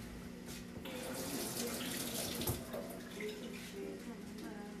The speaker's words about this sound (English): Wash my hands.